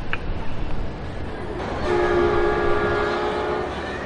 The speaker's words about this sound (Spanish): Precaución al movimiento del tren al cambio de vía.